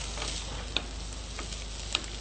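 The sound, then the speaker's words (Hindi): Boiled peas are sautéed and stirred in a pan, making a faint, steady sizzle broken by two light clicks. “अब हम इसमें add करेंगे मटर जो हमने बॉईल करके रखे हैं। इसको हम अच्छी तरह से मिक्स कर देंगे और थोड़ी देर के लिए इसको सौते करेंगे।”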